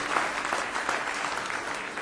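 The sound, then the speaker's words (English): Congregation applause at a church service: steady, dense hand clapping from many people that holds a fairly even, loud level for about two seconds, with no voices standing out. “Give him a big hand clap of praise if you love him this morning.”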